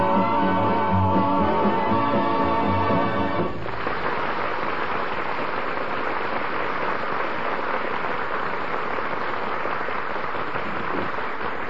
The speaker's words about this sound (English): 3 hours I've been standing here and it's raining harder than ever.